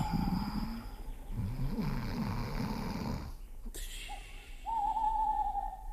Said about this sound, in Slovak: No a to iba sova húka.